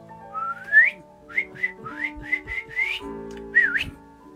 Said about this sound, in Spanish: Enfadado, el hombre silbó.